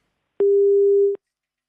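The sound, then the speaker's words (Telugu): A phone line gives a busy-signal tone as a call drops. There is one clean, steady, mid-pitched beep lasting under a second, alone against silence. “అయ్యో, మరి చెప్తుండగానే call cut అయినట్టుందండి, క్షమించాలి.”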